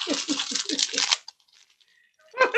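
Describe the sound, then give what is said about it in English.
Ripping open a package from an Amazon fulfillment center: a rapid run of scratchy tearing bursts lasting about a second, then near silence, then a brief voice at the end. “It could be from anybody as we rip this open.”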